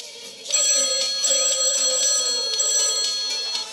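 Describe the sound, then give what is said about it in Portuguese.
A telephone rings while a call is being placed. A loud, steady electronic ringing tone starts after a brief quiet moment and continues with a slightly pulsing, bright quality until the end, with no voices over it. “Vamos ligar então. Pring.”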